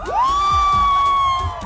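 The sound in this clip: Students on a campus esplanade shout and whoop as a crowd, with one long, high sustained cry held over a rough, loud background of voices.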